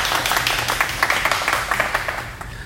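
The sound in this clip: Brisk clapping from a small group welcoming a guest. The claps are quick and fairly even, and the burst is brief.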